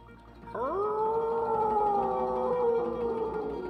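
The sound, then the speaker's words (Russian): Wolf howling: one long, tonal howl that swoops upward at the start, then holds a sustained mournful pitch for about three seconds and dips slightly near the end, alone over a low background. “Волк завыл.”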